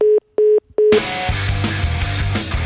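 Telephone dialing tones while calling someone back: three short, steady beeps of equal pitch, evenly spaced, followed by a louder, dense sound that continues to the end.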